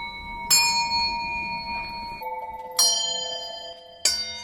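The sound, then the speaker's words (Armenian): Handmade bells from a collection on display in an exhibition are struck one at a time, with three distinct bright strikes. Each strike has a clear metallic ring that lingers and decays before the next one sounds at a different pitch. “ունենք վարպետ Արծրուն Բերբերյանի զանգերի մի շարք, կարող ենք յուրաքանչյուր զանգ ղողանջենք։”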